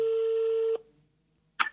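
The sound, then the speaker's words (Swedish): Telephone tones as a call is placed: a steady electronic tone holds for under a second and cuts off, then after a brief silence a short burst of tones sounds. “Jag ska bara ringa ett samtal”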